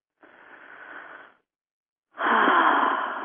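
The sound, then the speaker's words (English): A deep breath taken in, heard as two long, airy breath sounds separated by a short silence, the second noticeably louder and fuller than the first. “So everybody just get ready, just take a deep breath.”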